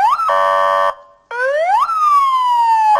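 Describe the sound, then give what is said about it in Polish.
An electronic warning siren on a bicycle ambulance sounds loudly on its own: a rising tone into a steady buzzing blast, a brief pause, then a sharp upward sweep easing into a long falling wail. “A rowerowa karetka? No tak, dajemy sygnał.”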